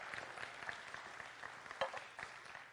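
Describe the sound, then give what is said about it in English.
Faint, steady applause from an audience welcoming a nine-year-old girl volunteer onto the stage at a morning gathering, a soft continuous patter of many hands that holds throughout. “So why, Lydia? Can you give Lydia a hand to make her welcome as well?”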